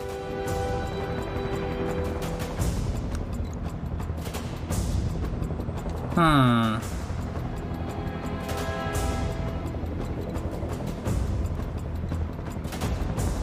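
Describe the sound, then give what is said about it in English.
A mech weapon fires in a video game: a single sharp, zapping burst midway through, over a steady bed of game music and rumble. “It's gonna shoot at the Shadowhawk, isn't it? Oh no, Shadowhawk takes damage.”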